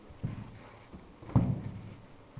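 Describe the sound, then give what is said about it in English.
Footsteps approach: two soft, low thuds over a faint background hush, the second louder than the first. “What's that? Footsteps. You can't see who's there, you just hear these footsteps, and they're getting closer and closer and closer.”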